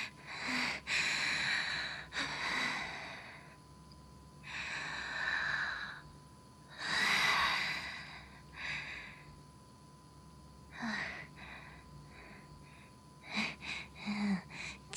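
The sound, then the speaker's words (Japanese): A person breathes deeply to calm a racing heart, with several slow, airy inhales and exhales followed by a cluster of shorter, sharper breaths near the end, all fairly soft. “ちょっと待って、動悸が激しすぎて苦しいから、一旦深呼吸して落ち着く。”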